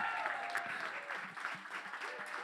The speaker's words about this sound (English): I pray that you can stand up with me and receive her right now. Would you put your hands together and welcome Laura Morales?